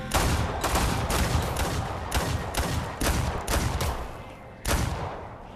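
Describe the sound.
Gunshots in a VR shooting video game: many sharp, loud blasts fired in quick succession, each with a brief noisy tail, at an uneven rhythm across the stretch.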